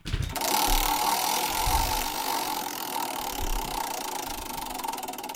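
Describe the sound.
A large, freshly dusted wheel spun on its ratchet makes dense, rapid clicking that blurs into a steady rattling whir. Low thumps sound early, and the clatter stays loud and continuous to the end.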